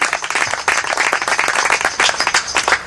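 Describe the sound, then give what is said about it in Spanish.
Bilingual church audience applauding to give the Lord a hand: a dense, loud patter of many hands clapping together, sustained through the whole moment with slight surges and no clear voices. “Give the Lord a hand. Dele un aplauso al Señor.”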